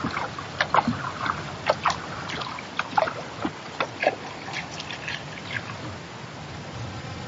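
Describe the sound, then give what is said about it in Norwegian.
Water rushes and splashes through small river rapids around a kayak, a steady broad wash broken by many sharp splashy knocks. “Jeg tror det blir litt stryk, ja. Det blir det.”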